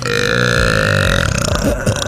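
A long, loud burp is performed as an act on a talent show, a rough, croaking belch sustained for about two seconds with no talk over it.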